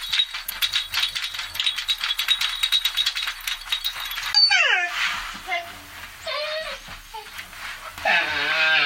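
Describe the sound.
A dog's collar rattles and jingles in a fast, continuous run of metallic clicks for about four seconds. The dog then gives several high, wavering whimpers and yips.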